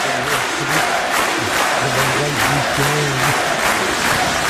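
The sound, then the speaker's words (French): A crowd of tens of thousands cheers at a Lyon mayoral candidate's first campaign rally, held in a square in the 4th arrondissement, with loud sustained shouting, low chanting voices and rhythmic clapping pulses throughout. “C'était hier en fin d'après-midi au Square Boton dans le 4e arrondissement où se sont amassées plusieurs dizaines de milliers de personnes pour acclamer Michel, Michel gallo candidat à la mairie de Lyon qui faisait là son premier meeting.”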